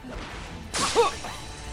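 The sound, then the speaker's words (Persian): A martial arts kick: a sharp swoosh cuts through the air and ends in a brief hit, a single quick strike that stands out against a quiet background. “حالا این لگدم اینجوریه.”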